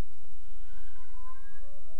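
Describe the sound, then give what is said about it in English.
A cat crying inside a building: one long, wavering meow that holds through the whole stretch, fairly loud over a low background rumble. “we got a crying cat in the building.”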